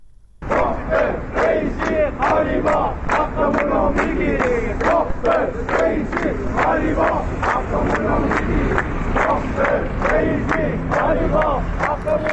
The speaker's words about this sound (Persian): این صدای گروهی از بازنشستگان در اهواز است.